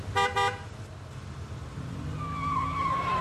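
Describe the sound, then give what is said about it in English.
An old hatchback car drives off: two short horn toots sound first, then a steady engine drone with a sustained whining tone builds and grows louder toward the end. “Hey, isn't that Niles? Hmm? Where? Driving that old hatchback.”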